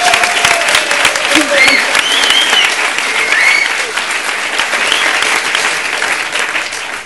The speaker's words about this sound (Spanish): Un aplauso es que para ella, por favor.